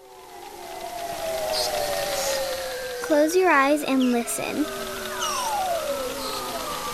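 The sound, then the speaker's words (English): Arctic bearded seals and narwhals call underwater: long descending whistles and sweeping tones overlap above a steady hiss, with a rapidly warbling trill in the middle. A voice speaks briefly. “That is the sound of the Arctic. Those are animals you're hearing. Bearded seals and narwhals.”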